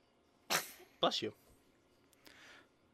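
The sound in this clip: A single abrupt sneeze bursts out loudly and breathily, followed by a brief voiced sound, then near quiet.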